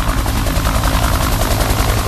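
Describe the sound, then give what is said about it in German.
Helicopter lands on a runway, its rotors rattling loudly in a steady, rapid chopping roar over a deep engine rumble that fills the whole clip without pause. “Unter lautem Knattern seiner Rotoren landet der Hubschrauber mitten auf der Landebahn.”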